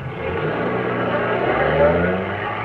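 A car engine runs steadily as the vehicle drives along a road, giving a low, droning hum with a smooth, even level throughout.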